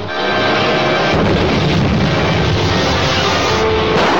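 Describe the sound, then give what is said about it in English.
A ray gun fires in a science-fiction adventure: a loud, sustained roaring blast swells up almost at once and holds steady to the end. “On target, steady as she goes. Firing ray gun.”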